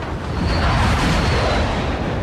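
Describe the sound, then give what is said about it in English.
Loud roar of Air Force fighter jets, F-50s, flying low overhead near a bombing range in the mountains. A broad rushing, thundering noise fills the whole clip, swelling slightly early on and holding heavy to the end. “They buzz me all the time. There's an Air Force bombing range right over those mountains. Looks like F-50s today.”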